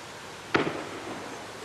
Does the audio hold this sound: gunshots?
yes